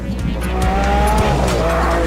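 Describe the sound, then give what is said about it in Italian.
A Lamborghini Aventador Roadster supercar with a 700-horsepower V12 roars in a continuous, loud drive, its engine tone climbing in a rising whine while tire squeal cuts through the steady low rumble. “La supercar economica secondo la Lamborghini, la Aventador Roadster.”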